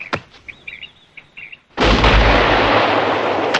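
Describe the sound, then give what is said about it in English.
A shotgun is discharged into the trees: one sudden, loud blast followed by a sustained roaring wash of noise. Faint chirping bird calls and a light click come before the shot. “That wasn't the sound of her shooting him, by the way, but her discharging it into the trees.”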